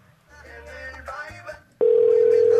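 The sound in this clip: A telephone tone after a dropped call: a loud, steady, unbroken electronic tone starts suddenly and holds to the end, following a short stretch of muffled voice.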